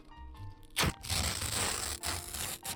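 A paper receipt point card is torn, lighter than ordinary paper. Dry, crackly ripping comes in a few loud bursts with brief pauses between them.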